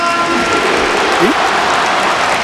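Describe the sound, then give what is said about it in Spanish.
A stadium crowd applauds in an ovation at a match, a steady, dense wash of clapping and crowd noise that holds at an even level from start to end. “Aplauso del estadio para Antoine. Ovación.”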